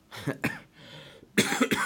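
A few coughs from someone still recovering from a cough: two short, rough bursts, a hoarse gap, then a louder, harsher cough.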